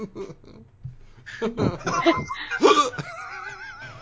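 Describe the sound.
Harsh hacking coughs come in a few rough bursts, mixed with laughter-like sounds, followed by a thin wavering squeal.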